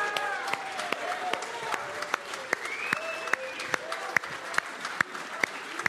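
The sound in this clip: A church audience stands and applauds to celebrate a group of men. Sharp, fairly regular claps stand out above the general clapping, with cheering and shouting voices rising and falling over it.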